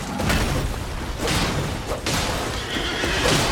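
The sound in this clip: A horse neighs in a video game during mounted sword combat, a loud, noisy whinny that fills the short clip with no talk over it.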